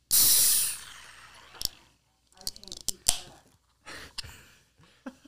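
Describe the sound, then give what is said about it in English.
A can of dark nitro beer is cracked open with a loud, sharp hiss of escaping gas lasting under a second, followed by a few soft clicks and taps at a lower level. “So let's crack it open one more time for the audience.”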